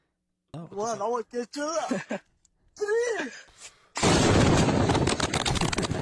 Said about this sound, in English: Is that a real bomb? Yeah, that video kicks so much ass.